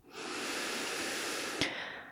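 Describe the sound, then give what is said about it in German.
A long, deep breath during a guided meditation, heard as a steady, soft breathy hiss held for over a second, with a brief click near the end. “Und dann atme nochmal tiefer ein”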